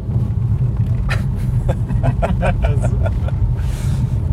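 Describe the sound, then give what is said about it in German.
A car drives onto an unpaved village road with a heavy, steady low rumble throughout. Scattered brief mid-range knocks and crunches from the rough surface sound over it. “in Lindenberg angekommen und man hört, wir fahren jetzt auf eine Dorfstraße.”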